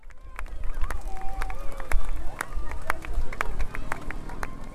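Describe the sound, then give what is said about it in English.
A noisy outdoor crowd outside the UN in Geneva greets a giant puppet more than three metres tall, with many sharp percussive claps or beats ringing out over a steady rumble of crowd noise and voices. “just outside the UN in Geneva, where there was a wonderful and noisy reception for the puppet, as you'll hear”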